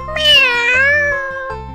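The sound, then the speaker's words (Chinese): A small black cat meows while playing in flour, giving one long, drawn-out, fairly loud call whose pitch wavers, with no voices around it. “小黑猫玩完面粉，摇摇尾巴走了，在地上留下一朵朵白色花朵。”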